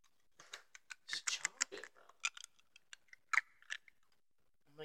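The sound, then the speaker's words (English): Teeth biting and crunching through a Tootsie Pop hard candy, many sharp, crackly clicks in quick, irregular bursts, fairly quiet and close. “If this is a Tootsie Pop, I could break it. You can't wait. I thought it'd be easier because it's a Tootsie Pop.”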